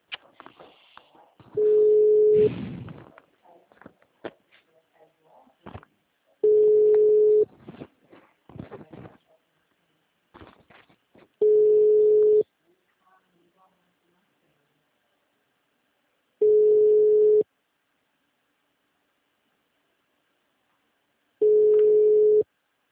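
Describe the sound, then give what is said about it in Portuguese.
After a dropped call, a telephone tone sounds in five steady, evenly spaced pulses about a second long. Faint talk and crackle fill the gaps between the first three. “A ligação caiu.”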